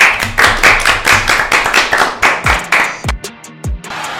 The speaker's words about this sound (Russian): поэтому мы начинаем. Похлопаем.